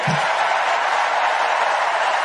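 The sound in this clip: Audience applause at a political speech saluting President Biden, a dense, even wash of clapping that holds steady without gaps.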